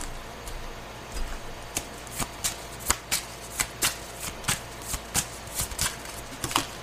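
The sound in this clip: Tarot cards are shuffled by hand, producing many sharp, papery slaps in a brisk, fairly even rhythm, with no voices.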